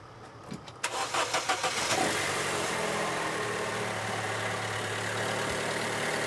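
A car's starter solenoid clicks when the key is turned, its battery too weak to crank the engine. About half a dozen quick, sharp clicks come in a rapid burst, then a steady broad hum carries on.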